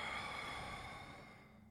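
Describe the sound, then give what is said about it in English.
A soft exhale through the mouth during a guided meditation breathing exercise, a single faint, breathy release that slowly fades away. “So let's take an inhale, light. Exhale those fucks.”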